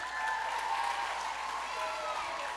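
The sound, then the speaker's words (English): Applause from an audience, steady and continuous for the whole stretch, with voices mixed in over the clapping. “All right, you can go sit down. Hey, give those guys a hand for me.”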